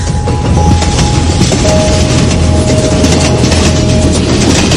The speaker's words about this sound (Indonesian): Sampai kereta ini memasuki semacam terowongan.